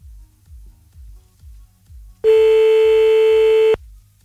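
Telephone line tone during an outgoing call: one steady, loud, buzzy tone lasting about a second and a half, cutting in abruptly after a run of soft, evenly spaced low thumps and then stopping sharply.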